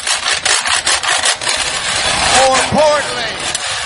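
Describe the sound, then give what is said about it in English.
Wooden spoons scrape rhythmically across a washboard during a university football coach's introduction, a dense, rasping wooden texture that pulses in quick, uneven strokes and stays loud throughout. “busted out a pair of wooden spoons and a washboard and started scraping away”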